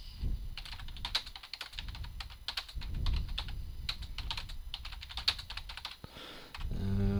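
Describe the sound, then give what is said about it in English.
Typing on a computer keyboard: a fairly quiet, rapid and irregular run of many clicking keystrokes with brief pauses and no talking. “That's all of it. There's nothing else to type.”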